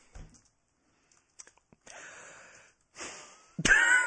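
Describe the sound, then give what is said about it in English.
A breath drawn into a microphone: a few soft ticks, then two breathy rushes, each under a second long, followed by a sudden louder, harsher burst at the end. “See, I take a breath into it.”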